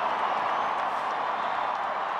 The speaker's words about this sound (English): And cheers from the crowd.